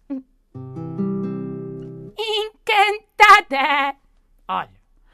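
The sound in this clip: A human voice imitates a sheep's bleating in a theatre play about animals: five quavering, vibrato bleats in a broken series, preceded by a low, steady sustained tone.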